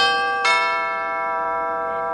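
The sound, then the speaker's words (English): A doorbell ringing: a single bright, tonal chime strikes and rings on as it slowly fades, with a fainter second touch of the tone partway through. “me get the doorbell.”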